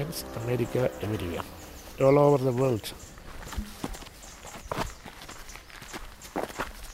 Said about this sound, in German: Wir stapfen wieder durchs Gelände.